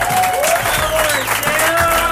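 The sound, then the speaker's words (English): Crowd applause at a White Sox baseball stadium, a dense, steady clapping and cheering that holds at an even, loud level throughout, with faint voices mixed in. “A wonderful hand from this appreciative crowd.”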